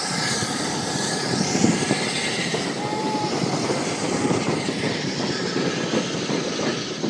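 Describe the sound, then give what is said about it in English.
Steam locomotive 73129 reversing up the line on a Santa Special, dragging its carriages: a continuous loud rumble of rolling wheels and rail noise with a steady hiss, no voices. “There wasn't quite as much steam this time. The train is reversing up the line and it's dragging the carriages along at the front of it.”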